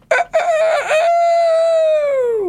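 A rooster crows once, loud and alone: a few choppy opening bursts give way to a long, sustained call whose pitch drops at the end.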